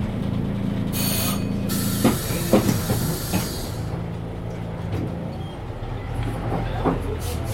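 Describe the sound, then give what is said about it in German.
An Ikarus 66 city bus in its urban version, driving in Rostock: a steady low engine rumble with loud bursts of airy hiss near the start and scattered faint clunks and rattles throughout. “Der Icarus 66 klingt ungefähr folgendermaßen.”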